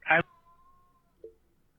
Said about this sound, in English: Well, the end of that was my cat, not a voicemail.